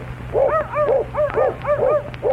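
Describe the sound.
A little dog barks in a quick series of high, whiny yips with an even rhythm, over a steady low hum.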